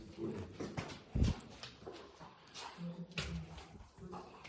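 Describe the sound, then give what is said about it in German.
Footsteps walking down a half flight of stairs indoors, heard as soft, irregular thumps of varying weight, faint overall with one heavier step standing out. “Gehen wir die Treppe wieder runter, die halbe Treppe.”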